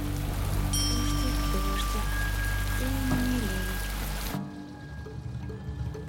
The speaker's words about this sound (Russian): На улице ливень.